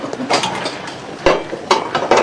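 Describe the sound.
A cooking pot being handled in a home kitchen gives a few sharp metallic clanks and clatters, spaced apart over a low background hiss, with no voices.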